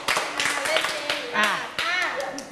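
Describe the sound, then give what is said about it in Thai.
Hand clapping in a children's class game, with several sharp claps in quick succession while voices talk over them. “ปรบมือ5ครั้งปรบให้ง่ายกว่านี้ปรบใหม่อีกทีไม่ดีเลย”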